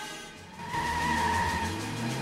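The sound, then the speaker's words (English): A brown car lurching forward and weaving into oncoming traffic, its engine a low rumble that swells and climbs in pitch, with a thin, steady high whine above it. “The brown car lurches forward, knocking the rear fender off the car parked in front and weaving out into the oncoming traffic.”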